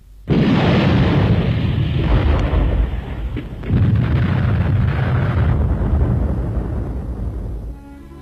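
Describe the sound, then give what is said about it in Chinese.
Enemy artillery shells exploding on an empty battlefield position make a loud, continuous roaring blast. It surges again partway through, then eases off near the end, with no voices. “敌人的炮弹便在空阵地上爆炸了。”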